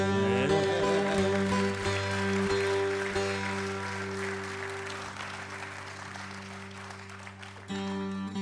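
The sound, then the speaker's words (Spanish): Audience applause for the host at a gathering in Langón, a steady patter of clapping that gradually thins and softens over several seconds, with sustained tones held underneath. “Con mi verso les encauzo para pedir un aplauso a Patrick, el anfitrión.”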